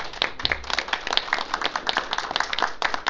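An audience applauds an award recipient being honored at a recognition ceremony, giving a fairly soft, continuous patter of many hands clapping.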